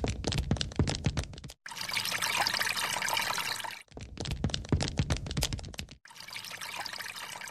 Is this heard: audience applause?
no